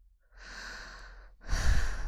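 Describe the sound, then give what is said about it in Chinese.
Heavy human breathing: a long, softer drawn breath, a brief pause, then a louder, rougher breath with a snort-like push, alone and with no talking. “你这样呼吸弄得我好难受啊”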